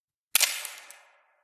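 A single camera shutter click as a photo is taken: a crisp, bright mechanical snap with a short clattering tail, isolated against silence.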